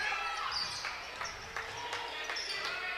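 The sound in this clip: A basketball is dribbled on a court during a game, with several sharp bounces in a steady rhythm under ongoing voices.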